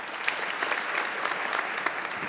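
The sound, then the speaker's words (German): Audience clapping at a panel discussion event, a brisk, even wash of many hands that continues without a break. “So, jetzt brauchen Sie nicht zu klatschen.”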